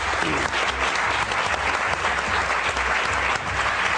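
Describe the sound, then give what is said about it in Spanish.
Audience applause at a live comedy show: many hands clap in a dense, continuous wash that stays at an even, fairly loud level for the whole stretch. “Y ahora ya tiene un aplauso conjunto para nuestro Eduard Punset de la Risa, Javier Cansado y uno de los mejores cantantes brasileños de Esplugas, Pepe Colubi.”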